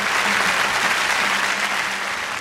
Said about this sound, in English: The crowd stands and applauds.